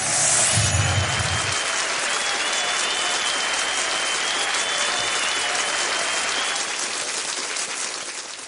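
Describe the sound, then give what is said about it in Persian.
Audience clapping and applause: a loud, sustained wall of many hands clapping at a constant intensity, easing slightly toward the end. “به افتخار دست بزن”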